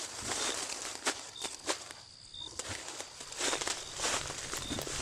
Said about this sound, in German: Da ist ein Lagerfeuer. Da laufe ich jetzt hin.